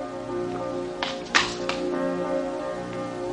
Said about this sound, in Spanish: Sube unos escalones.